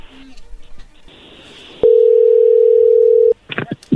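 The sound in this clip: A steady telephone call tone sounds for about a second and a half as someone is phoned. Voices talk before it and right after it.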